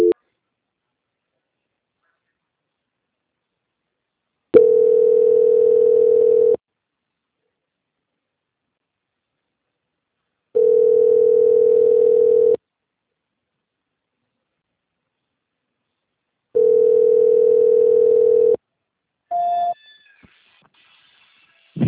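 A telephone ringback tone plays while a transferred call waits for an answer: three steady mid-pitched tones of about two seconds each, evenly spaced by silences, then a few brief higher blips at the end.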